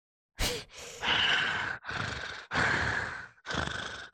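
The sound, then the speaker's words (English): Heavy breaths blown close into a microphone, a rapid string of loud, raspy, rushing bursts with brief gaps between them and no talk. “Why don't you breathe more into your mic?”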